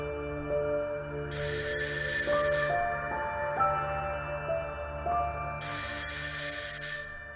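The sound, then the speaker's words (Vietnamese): An alarm clock ringing loudly and shrilly: two bursts of bright, high-pitched metallic ringing, each about a second and a half, over a soft melodic tone pattern, with no speech. “Tiếng chuông báo thức treo lên inh ỏi”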